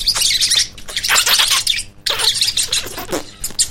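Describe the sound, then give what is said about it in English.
Tomtits, small insectivorous birds, calling in a dense, continuous chorus of high chirps, tweets and squawks that overlap throughout with only a brief pause midway. “Sorry, the tomtits. Lots of beautiful little insectivorous birds making those sounds,”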